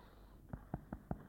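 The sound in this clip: Rattling crackles in a patient's breath during a chest check for bronchitis: five regular, low, rough pulses follow one another at an even pace after a brief quiet start.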